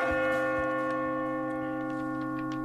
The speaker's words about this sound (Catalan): Doncs per ell, aquesta setena campanada.